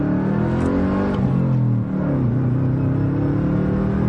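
A stage one tuned car engine revs with a deep, continuous drone that stays strong throughout, dipping briefly midway before settling back to a steady hum.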